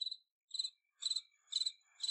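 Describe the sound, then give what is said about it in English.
A cricket chirps in five short, high-pitched trilling bursts at an even rhythm, faint and alone with no other sound. “So that's a cricket. You hear that early in the morning,”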